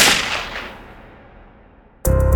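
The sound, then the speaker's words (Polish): A pistol shot: a loud, sharp crack bursts in abruptly near the end and rings on. It follows a long, fading rushing tail. “Zdesperowany napastnik strzela sobie w lewą skroń i ginie na miejscu.”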